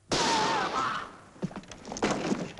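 A single pistol shot in a dramatized indoor scene: a loud, sharp burst with a long decaying tail, followed by a few softer thumps.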